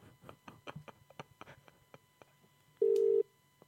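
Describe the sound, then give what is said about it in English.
An odd, non-standard telephone dial tone: faint clicks and ticks lead to one short, steady mid-pitched beep near the end. “It's not a normal dial tone either. It's just so weird.”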